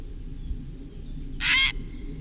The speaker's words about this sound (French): Ensuite, le héron cendré, le numéro 10, c'est un oiseau qui se porte pas trop mal partout où il y a des étangs, de l'eau et même dans les prairies